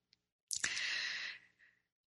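A single long, soft breath released as a sighing exhale during a guided heart-focused meditation, breathy and smooth for about a second before trailing off into silence.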